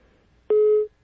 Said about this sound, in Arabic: قطع. يبدو قطع الخط.